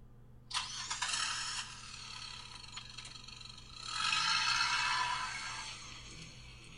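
A car engine cranks and catches with a sudden burst, settles into an idle, then revs up again louder as the car pulls away, before easing back.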